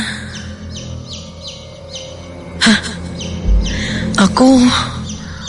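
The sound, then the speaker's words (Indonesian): Baby chicks peeping, a sound effect heard from outside a villa bedroom: many short, high, downward peeps repeat in a steady run, broken by a couple of louder bumps and a brief low voice-like sound near the end. “aku mendengar suara anak ayam. Terdengar jauh dari luar kamar tidur villa ini.”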